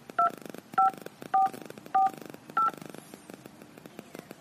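Five evenly spaced telephone keypad tones as a voicemail password is entered on a wireless voicemail system, each beep short and clear, with faint background noise between presses.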